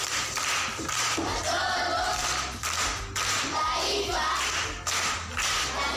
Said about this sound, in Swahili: Makofi kwa mjomba.